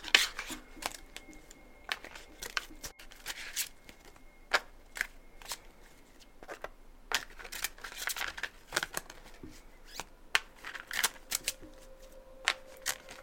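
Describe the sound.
Tarot cards being shuffled and drawn give many quick, faint papery flicks and snaps in an irregular patter.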